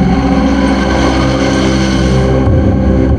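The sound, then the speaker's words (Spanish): Engine drone of a truck driving slowly through a bank of fog with poor visibility, a loud, steady, low rumble with dense harmonics that holds throughout and shifts slightly near the end. “El camión avanza con poca visibilidad a través de un banco de niebla.”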